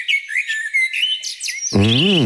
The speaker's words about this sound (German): Vogelgezwitscher sei ein richtiges Wundermittel, sagt auch der Livio Rey